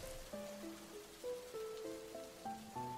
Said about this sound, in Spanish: Afuera llueve.